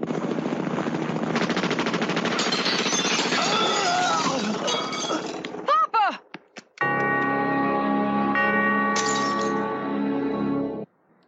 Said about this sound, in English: And so we end Act 2 with Fat Tony being shot by the rival mobsters